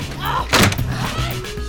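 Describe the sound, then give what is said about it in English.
A closet door slammed shut in an audio drama, a single heavy thud in the middle, with voices talking before and after it. “And to be sure you are here when I get back, I'll just lock you in the closet. No, in with you now.”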